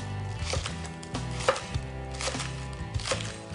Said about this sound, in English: we're gonna mince our green onion.